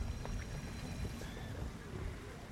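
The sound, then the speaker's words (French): A solar-powered electric boat in the harbour of Monaco, heard as a faint, steady low rumble and wash of water with a thin hum, unbroken and quiet throughout. “ce que vous entendez, c'est parce que nous sommes sur un bateau solaire, électrique”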